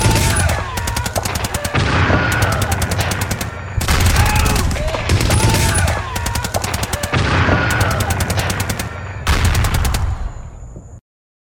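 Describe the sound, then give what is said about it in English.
Alien weapons fire in a science-fiction audiobook action scene: several long bursts of loud, rapid crackling shots in close succession, ending abruptly. “What is left of the search team's amazement is canceled by more alien weapons fire as they battle it through to escape their predicament.”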